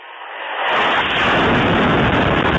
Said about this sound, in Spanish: Esto es un ataque en una zona residencial de Kharkov.